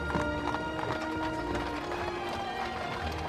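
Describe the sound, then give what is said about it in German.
Hooves of a horse-drawn carriage clip-clop as it turns into a town street in Lübeck, a steady trotting rhythm of many quick strikes that stays fairly even throughout. “Bald hört Toni oben an ihrem Fenster, wie der Wagen in die Mengstraße einbiegt.”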